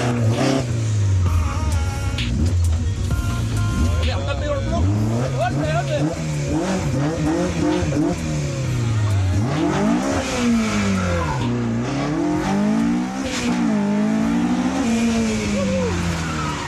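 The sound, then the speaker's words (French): A McLaren sports car's engine revs hard as it slaloms between cones on a timed run, its pitch repeatedly climbing and dropping with each throttle change, loud and continuous throughout, with voices over it. “l'idée c'est de slalomer entre les cônes et de revenir.”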